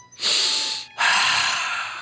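A deep breath of fresh air is drawn while someone takes in a view over a valley: two long, airy, hissing rushes of breath, one after the other with a brief pause between, fairly loud and with no talk.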